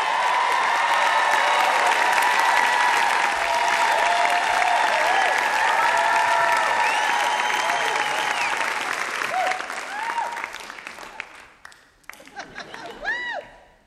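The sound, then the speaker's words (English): Audience applause for a storyteller, a dense, steady roar of clapping that holds for about ten seconds. It then thins into scattered claps with a few high whoops and whistles. “You can hear by the audience reaction that she is beloved in the Music City.”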